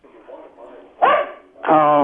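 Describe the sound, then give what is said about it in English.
A dog barks over a caller's phone line, two loud, sharp barks in the second half after quieter murmuring. “I didn't want to talk to your dog. I want to talk to you. I'm sorry about the dog.”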